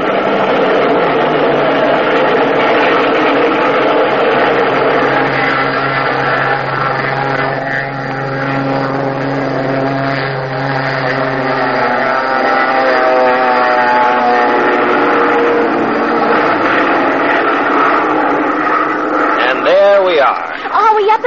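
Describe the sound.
Airplane engines roar through takeoff as the aircraft departs on a flight bound for Honolulu, Australia and San Francisco. A loud, sustained drone with steady tonal hum holds throughout, and the tones waver near the end.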